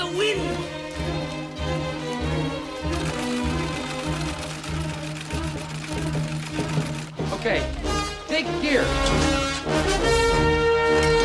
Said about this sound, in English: Even the oldest members of the village are sewing. They pedal away furiously with their feet.